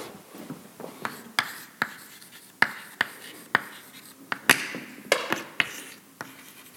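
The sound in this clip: Drawing on a board during a lecture on a model of filament polymerization: many sharp taps and scratchy strokes in an irregular rhythm, each stroke a short crisp hit followed by a brief scrape.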